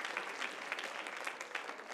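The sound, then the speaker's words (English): A church audience applauds, giving a faint, steady rattle of many hands clapping at an even pace. “That's a good place to clap right there.”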